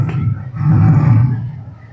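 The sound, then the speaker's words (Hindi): A voice imitates a lion's roar, one long, low, rough growl that swells and then slowly fades. “सब लोग शांत रहना शेर धाड़ने वाला है”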